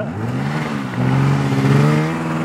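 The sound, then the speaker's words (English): A snowmobile engine revs during a ride, a loud, steady mechanical drone that swells a little louder through the middle and then eases off slightly, with no voices. “it begins with a snowmobile ride that feels like a bucking bronco”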